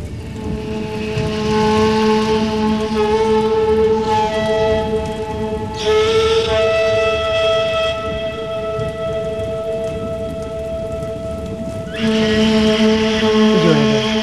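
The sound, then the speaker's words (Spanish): Heavy, steady rain falls in a thunderstorm, a dense hiss that swells into broad rumbling bursts a few times, over a sustained tonal drone of music. “Llueve. Hay tormenta. Casi nieva.”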